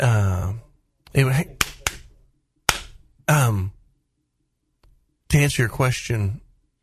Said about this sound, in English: I was clapping at him. Are you clapping at him? To quiet down.